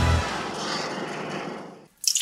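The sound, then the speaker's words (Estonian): A dripping kitchen tap gives off a steady, wet watery noise that holds at an even level, then a short, bright splashy burst at the very end. “Ma tilgun! Kurdab köögikraan.”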